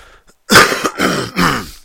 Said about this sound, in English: sorry again, I just got like constant fucking phlegm here. It's pretty gross.